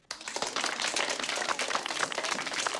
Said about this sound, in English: Marcy smiles at the other kids' applause.